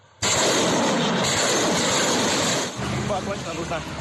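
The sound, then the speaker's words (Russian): Allied artillery fires near Avdiivka: a sudden loud blast opens into a broad, sustained roar. It then settles into a lower, rumbling tail that keeps going to the end. “Координаты получены, звучит команда «Огонь». Союзная артиллерия уничтожает позиции украинских силовиков под Авдеевкой.”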